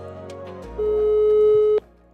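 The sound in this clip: A telephone calling tone sounds while a call is being placed: one steady, mid-pitched beep lasting about a second, clear and alone over faint background hiss.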